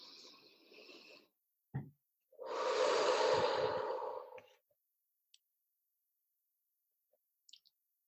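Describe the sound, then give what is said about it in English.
A person breathes in during a guided breathing exercise. A soft, faint breath and a brief click come first, then one long, deep, airy inhale lasting about two seconds before near silence. “So breathe in.”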